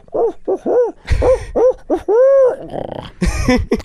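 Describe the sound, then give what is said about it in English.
A human voice imitates an owl call with a rapid series of short, arched hoots, including one longer drawn-out hoot in the middle, ending with a few rougher, breathier calls. “when you owl call, yeah. The owl call would be like,”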